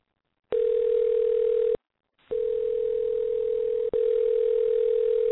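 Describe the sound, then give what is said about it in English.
A telephone dial tone follows a dropped call: a steady, single-pitched electronic hum in three stretches, with a short silent gap after the first and a brief break within the rest. “Looks like the call dropped. Maybe he didn't hear me.”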